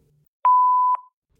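A voicemail beep sounds before a caller's message: a single loud, steady electronic tone that holds an even pitch for about half a second, then stops, with silence around it.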